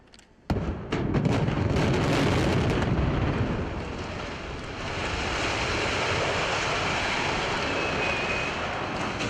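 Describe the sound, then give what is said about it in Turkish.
Controlled dynamite demolition of a 48-year-old, 16-storey building using nearly 500 kg of explosives: a sudden loud blast and a rapid series of cracks, then a long, heavy rumbling roar that stays loud. “Ardıl şekilde ateşlenen dinamitler peş peşe patladı. 48 yıllık bina kontrollü şekilde saniyeler içinde yerle bir oldu.”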